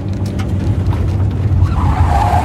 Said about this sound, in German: Brody Elder lenkte seinen alten Chevrolet über den Highway Richtung Norden. Plötzlich schlug er das Lenkrad ein und bog scharf auf eine Schotterpiste ab.